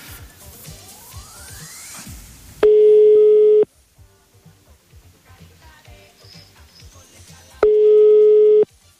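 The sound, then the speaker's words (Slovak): Telephone line tones sound while a phone call is placed: two long, steady, mid-pitched beeps about five seconds apart, each lasting roughly a second, with a quiet hiss and faint noise in between. “Ideme Fera volať.”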